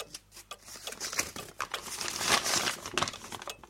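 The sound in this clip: A paper letter being handled gives off an irregular, crisp rustling and crinkling that builds from soft taps to a denser, brighter crackle before easing off.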